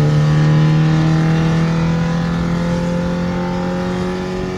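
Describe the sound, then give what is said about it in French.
Loud, continuous engine drone of a Renault 5 car pulling hard in third gear at about 140 km/h. A dense, buzzing harmonic tone holds near-steady pitch throughout, with no voices over it. “La troisième est beaucoup plus longue à monter. C'est normal. On est déjà à 140. Pour une R5, c'est pas mal.”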